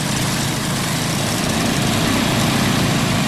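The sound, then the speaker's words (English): Forty lawn mowers run at once in a dense, steady engine roar. The thick drone fills the whole clip without a break. “And here are 40 lawnmowers going at once, flying over this lady's house.”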